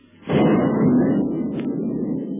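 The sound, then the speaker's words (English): Artillery shells fired from a boat's gun bombard a cave, breaking in with a sudden loud boom and settling into a sustained, thunder-like rumble that holds for about two seconds, with no voices. “When a sound like thunder reaches their ears, the octopus boat is shelling the cave, and as the bombardment continues”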